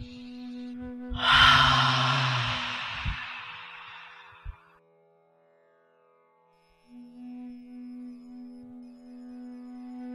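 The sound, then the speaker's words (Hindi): A single deep breath drawn during a guided breathing exercise: a broad, airy rush that swells quickly, then slowly fades over a few seconds, with a steady low tone running beneath. “एक गहरी सांस लीजिए, एक और गहरी सांस लीजिए।”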